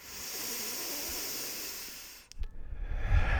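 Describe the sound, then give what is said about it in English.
A long, steady airy breath during a guided breathwork exercise of full inhales and exhales. The hiss holds evenly for about two seconds, then breaks into a few short, rougher puffs of breath noise. “We're just looking for full breaths, increasing that exposure by 30% in the lungs to oxygen. Fully in. And let go.”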